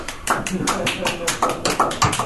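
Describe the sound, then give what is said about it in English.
A golf clap, quiet and polite, comes from a few people at a meeting: sparse, scattered claps with uneven spacing, mixed with people talking. “the golf clap?”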